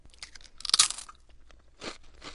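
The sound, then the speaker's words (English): A greasy Boulder Potato Company potato chip is bitten with one loud, brittle crunch, followed by a couple of softer crunching chews. “Again, just not my idea of a chip. It's got the crunch, it's greasy, but it's got that cardboardy taste too. These again were a very low-ranking chips. This is the Boulder Potato Company's chips.”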